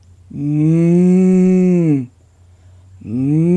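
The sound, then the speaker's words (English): A voice imitates a cow mooing: a loud, low, steady hum lasting about two seconds, then a short silence before a second moo starts and is cut off. “He called out, "Bukotla, Bukotla, if you are alive on this earth, please, moo." And he heard,”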